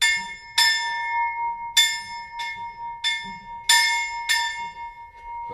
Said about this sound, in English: And we have tradition when our student finish the maturita exam in our school, they can ring on this bell.